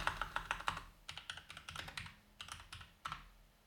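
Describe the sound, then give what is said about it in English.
Fingers type on a computer keyboard, a quiet run of many quick clicking keystrokes in uneven bursts with a brief pause near the middle. “Well, when I type read, it just changes to wait. I go R E A D space and changes to wait.”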